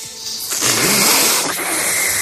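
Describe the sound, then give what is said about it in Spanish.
A loud inward sucking breath, hissing and slurping as if sucking up spaghetti, done as a vocal exercise for the vocal cords. It holds as one continuous drawn-in rush for about two seconds. “Respira profundamente y a continuación succiona como si estuvieras comiendo espaguetis.”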